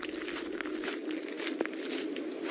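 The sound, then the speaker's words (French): A 37-year-old former soldier at a prosthetics rehabilitation centre in Juba practises walking on pebbles with a prosthetic leg. His steps make several uneven gravelly crunches over a constant hiss. “s'entraîne à marcher dans des cailloux avec sa prothèse”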